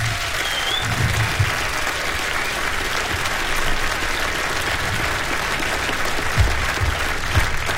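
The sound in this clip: Applause for the band Slow Train fills the whole stretch as a dense, steady patter of many hands. It holds at an even level, with a few louder claps or thumps standing out near the end.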